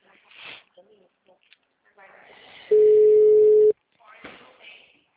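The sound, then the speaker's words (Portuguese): A single steady telephone tone sounds after a dropped call, holding one even pitch for about a second, with a voice talking before and after it. “Alô? Alô, a ligação caiu, Misael”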